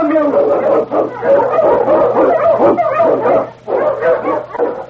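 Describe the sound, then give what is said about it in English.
Malamute sled dog, a swift and strong Eskimo lead dog in storm and snow, barks and yips in a steady run of loud calls, with only a couple of short pauses, over a low constant hum. “Malamute! The Wonder Dog King, swiftest and strongest of Eskimo lead dogs”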